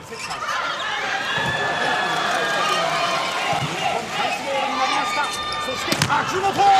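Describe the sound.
Volleyball ball contacts from a serve and a defensive dig during a match, heard as a few sharp slaps over steady, dense crowd noise, with the clearest hit near the end.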